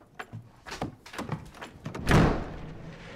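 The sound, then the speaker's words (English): A bedroom door with a chain across it bursts open in one loud, heavy crash that rings out and fades, after a run of fainter knocks and thumps. “open the door. His father bursts in and finds the room empty.”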